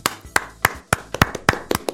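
Live-show hosts clap their own hands in place of an applause sound button: a quick, uneven series of many sharp, dry claps, each distinct, with short gaps between them.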